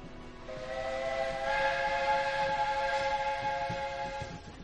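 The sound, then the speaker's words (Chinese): A steam train departs, its whistle sounding a long, sustained chord-like note over a low rumble and hiss. The whistle comes in after a brief moment, swells slightly, holds steady and fades near the end. “蒸汽列车轰轰隆隆地离开了西北，重新从山野之间驶向中原。”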